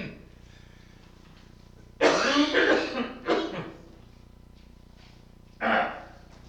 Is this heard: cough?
yes